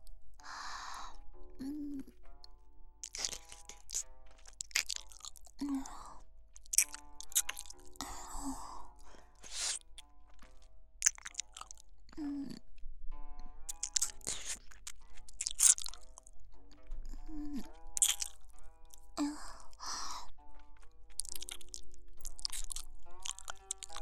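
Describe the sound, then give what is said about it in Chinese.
Someone eating, crunching and chewing food in many crisp, uneven bursts of bites and chews, with a faint tonal background running underneath. “那么，奴婢就继续吃了。”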